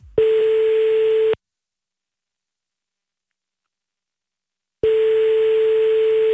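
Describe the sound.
Ringback tone of an outgoing telephone call while the line rings, two steady, buzzy electronic tones, each a little over a second long, separated by a long silent gap.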